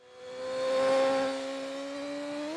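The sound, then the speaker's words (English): A BMW double R motorcycle ridden at the limit produces a high, tonal engine whine that swells, settles to a steady pitch and edges upward at the end. “I wish I could say that was me riding that double R on the limit, but it was Peter Hickman.”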